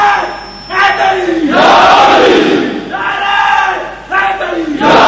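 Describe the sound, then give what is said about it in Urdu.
A crowd chants the Nara-e-Haidri slogan: one voice calls out, then massed male voices answer in loud, rhythmic roars that swell and fade in repeated waves. “زور لاؤ بھائی زور، نعرہ حیدری، احوال کر کے نعرہ لاؤ”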